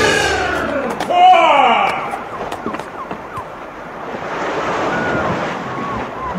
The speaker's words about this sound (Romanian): poți auzi valurile mării și le poți vedea.